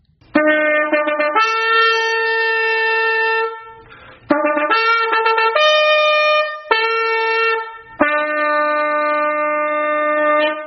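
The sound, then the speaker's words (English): A silver trumpet sounds a series of loud, bright, sustained notes, several held for a few seconds each, separated by short breaks and shifting slightly in pitch from one note to the next. “but God instructs Moses to make two silver trumpets. And this is the sound of a silver trumpet.”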